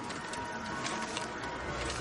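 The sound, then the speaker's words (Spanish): A printer in an office runs steadily as it makes copies of a drawing, giving off a continuous, even whirring hum with a faint flutter and no clear pauses. “Una impresora hace copias del dibujo.”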